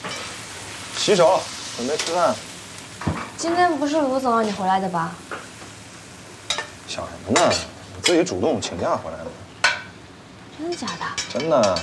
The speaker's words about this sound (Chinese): 你咋还做饭啊？